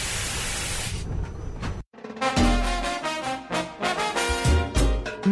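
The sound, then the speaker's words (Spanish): A bottle being opened lets out a long, loud fizzing hiss lasting almost two seconds, which cuts off abruptly into a brief silence before other sounds begin. “Ahí vamos, abre una botella.”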